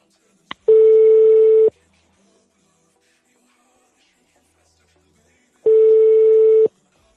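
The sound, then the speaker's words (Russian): Telephone tones while a number is redialed: a short click, then two long, steady mid-pitched beeps of about a second each, separated by several seconds of silence. “Опа, в избранное. Еще раз набираем.”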